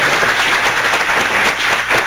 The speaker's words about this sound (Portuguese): Uma salva de palmas para ser você.